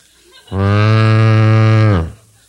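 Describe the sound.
Cattle moo in one long, loud, steady call lasting about a second and a half. The pitch is low and rich, dips slightly at the end, and no voices are heard.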